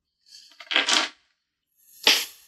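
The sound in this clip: A four-sided die is rolled in a tabletop game, giving a short rattling clatter, a pause, then a second brief clatter.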